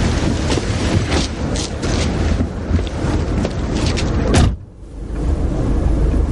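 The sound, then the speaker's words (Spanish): A taxi starts and drives off from a private alley beside an apartment block, giving a loud, rushing rumble of engine and road noise that cuts out briefly near the end and then resumes. “El taxista arranca y se marcha del lugar.”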